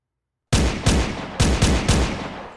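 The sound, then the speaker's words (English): Gunfire from pistols, rifles and automatic weapons shot by police. After a brief silence come five loud, sharp cracks in an uneven rhythm, each with a short rumbling tail. “They're shooting at us!" Pistols, rifles, and even automatic weapons were firing up at us.”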